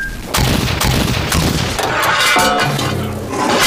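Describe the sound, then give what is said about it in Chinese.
Gunfire and artillery fire rage in a radio drama battle at Wanping by the Lugou Bridge, with many sharp reports and heavy booms over a continuous loud rumbling roar. “我们的炮火正在对宛平轰炸”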